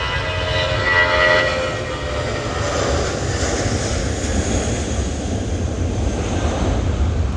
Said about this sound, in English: a Spirit airplane just drove by